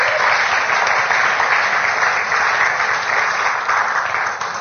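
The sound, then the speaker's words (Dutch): Audience applause for an author at a book preview held during a festival: loud, dense clapping from many hands that holds steady for several seconds before easing off slightly at the end. “So kom ons geef haar 'n applaus vir haar moed.”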